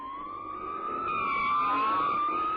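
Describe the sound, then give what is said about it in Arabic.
A police emergency car's siren wails loudly and continuously, its steady tone sliding gently up and down throughout with little else audible. “بوليس النجده جه في وقته.”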